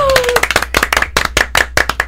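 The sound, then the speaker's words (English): A sparse golf clap from a small audience at a beer tasting of a toasted porter: many separate, sharp hand claps in an uneven, loose rhythm, fairly loud and crisp. “Wow, we got a golf clap.”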